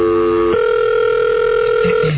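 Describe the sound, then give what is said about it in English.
Telephone tone on an outgoing call to a radio station: a loud, steady electronic buzz that shifts once shortly after the start, then holds evenly to the end. “We should call her back and ask.”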